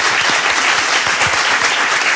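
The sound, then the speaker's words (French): An audience at a ski resort applauds with dense, steady clapping that stays loud and even for the whole stretch, with no voices standing out. “Vous pouvez les applaudir. Ils sont là en vacances avec leur bébé. Et le bébé, il applaudit aussi.”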